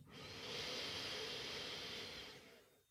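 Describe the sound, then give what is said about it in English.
A slow, deep breath in through the nose during a breathing exercise: one soft, steady airy hiss lasting about two and a half seconds, quiet and alone. “So deep breath in through the nose.”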